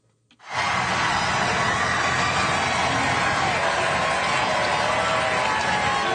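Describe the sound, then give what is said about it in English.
Crowd noise from hundreds of thousands of people lining the Champs-Élysées in Paris, waving French and Vatican flags to welcome Pope Leo. A loud, steady roar breaks in abruptly after a brief hush and holds without pause. “In France, hundreds of thousands of people waving French and Vatican flags lined the Champs-Élysées in Paris today to welcome Pope Leo.”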